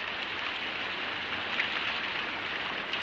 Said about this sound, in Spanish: mira la lluvia que cae espesa